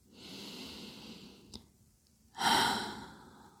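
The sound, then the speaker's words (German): Slow breathing in and out during a floor exercise while curled up, with two long airy breaths separated by a short pause and a small click, the second breath louder and fuller. “Atme noch einmal ein und aus. Noch einmal.”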